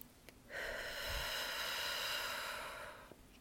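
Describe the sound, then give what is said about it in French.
A single long, deep breath drawn in through the nose during a guided breathing exercise. It is a soft, airy, slightly whistling hiss held steadily for a few seconds on its own before it stops. “vous allez vider l'air de vos poumons au maximum. Puis vous allez inspirer. Alors, je vais le faire en même temps.”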